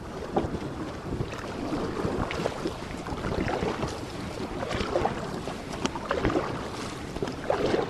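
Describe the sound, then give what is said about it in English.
A dragon boat crew of ten paddles strokes through the water in unison, giving a steady wash of splashing under constant wind noise, with no voices. “Ten paddles ply the waters as one.”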